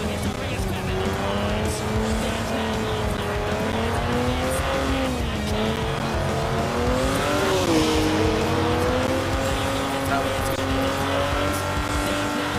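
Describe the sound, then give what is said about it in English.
Sports car engine driven in a video game: a steady, loud engine drone whose pitch wavers up and down as the car speeds along, with a noticeable dip around the middle. “I'm just gonna like drive like most sports car drivers do.”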